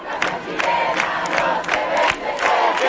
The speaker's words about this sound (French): C'est avec d'anciens slogans de mobilisation antérieure que les jeunes manifestants ont défilé sur l'une des artères principales de la capitale.